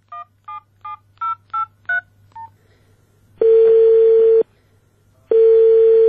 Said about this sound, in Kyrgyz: Биз андагы телефон номурлардын бирине байланышып көрдүк.